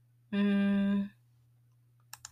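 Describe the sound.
Three quick, soft computer mouse clicks while selecting a course link on a website, coming after a sustained buzzy harmonic tone, with a low steady hum underneath.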